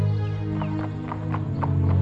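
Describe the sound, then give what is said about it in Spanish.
Hooves of an exhausted horse clip-clopping as its rider, after a long journey, draws up and stops before a house: a steady series of hollow clops over a low, constant drone. “Cierto día, un jinete se detuvo frente a la casa de la familia Domínguez. El caballo estaba exhausto. Había recorrido un largo camino,”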